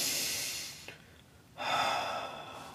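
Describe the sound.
A calm, plain breath: a soft, airy inhale, a short quiet pause, then a longer, slightly fuller exhale, unhurried and without any sigh.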